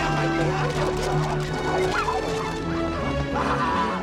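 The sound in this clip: Dogs chasing through a market make a dense, continuous din of crashing and animal cries that stays loud and busy throughout.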